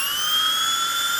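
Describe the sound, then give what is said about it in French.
A dentist's drill gives a steady, piercing high-pitched whine that holds at an even, loud level throughout, with no voices over it. “C'est le son de la fraise dentaire.”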